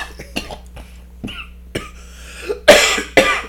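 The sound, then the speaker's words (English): A man coughs and chokes in a series of harsh, rasping bursts separated by short gaps. The last two bursts are the loudest and longest. “my co-host is choking.”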